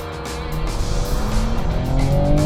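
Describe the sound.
A 2016 Chevrolet Camaro with a 335-horsepower V6 accelerates hard, its loud, dense engine roar climbing steadily in pitch without a break.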